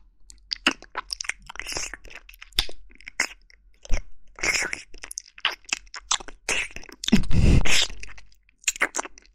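Chewing and biting on a shoe sole: many sharp, irregular crunches and gnawing bursts, with one longer, louder grinding stretch near the end.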